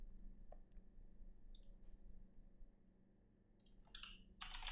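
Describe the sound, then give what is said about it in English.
Computer keyboard and mouse clicks sound as a screenshot is taken. A few faint, sparse taps are followed at the end by a quicker, denser burst of clicking. “I'm just going to make a quick print screen and put it up on the screen so you guys see it”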